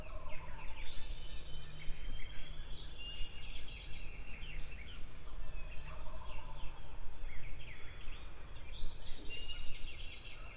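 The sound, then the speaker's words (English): A wild turkey gobbles faintly about 15 to 20 minutes before sunrise, its calls distant and mixed into a steady chorus of other bird calls that runs continuously. “I've been hearing quite a bit of gobbling. I think you can hear it too. But it's pretty distant.”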